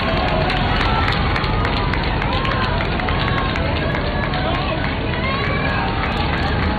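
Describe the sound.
Crowd noise from a large gathering in a street in Spain awaiting the Pope: a dense, continuous roar of many blended voices and movement, steady in loudness throughout, with no single voice or event standing out.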